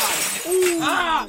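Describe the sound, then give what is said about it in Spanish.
A glass is thrown and shatters in a short, bright crash with tinkling fragments, while a voice is heard over it. “¡Ay, no le tira vidrio!”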